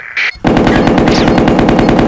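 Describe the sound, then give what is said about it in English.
Machine gun fire in a video game: a brief high tone, then a loud continuous burst of rapid, evenly spaced shots that runs to the end. “Machine gun.”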